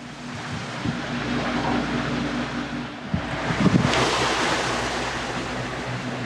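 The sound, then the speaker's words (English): Wind blows against a window as it keeps getting worse, a continuous rushing roar with a sharper gust around the middle, no voices. “The wind is blowing against my window right now it, it just keeps getting worse and worse”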